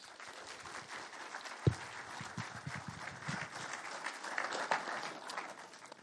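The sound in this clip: Applause from an audience welcoming a speaker at an event. Fairly faint, steady clapping runs throughout, with one sharper, louder clap early on.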